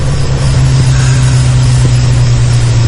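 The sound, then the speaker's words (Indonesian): A noisy vehicle engine drones steadily, heard faintly from far away, with a constant low hum that holds at an even, fairly loud level throughout. “Hingga tak lama, samar dari jauh terdengar suara kendaraan yang cukup berisik.”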